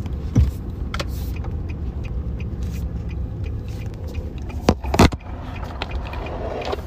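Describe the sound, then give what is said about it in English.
A car's turn signal ticks with faint, sharp clicks over the steady low rumble of the moving car's interior. No one speaks. “That blinker must be really annoying when you hear it on the podcast.”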